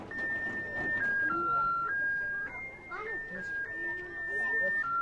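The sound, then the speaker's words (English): An electronic tune from an ice cream cart plays in a street in Kabul. Thin, whistle-like notes step up and down in a simple repeating melody, over a steady bed of street noise and faint voices. “If there's a defining sound of Kabul, it just might be the melodies of the ubiquitous ice cream carts. All day long you hear happy birthday or other melodies that stick in your head like mental flypaper.”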